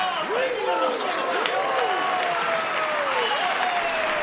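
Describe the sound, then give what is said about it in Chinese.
Wedding guests cheer and applaud in a dense, continuous wash of clapping, with excited whoops and whistles gliding up and down throughout. “俾啲欢呼声嚟听下先啦”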